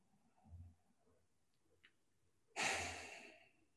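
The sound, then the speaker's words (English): A single deep, loud breath rushes through near the end and slowly tapers off, with only faint, softer breathing sounds earlier and no talking. “Oh, that deep breath felt good.”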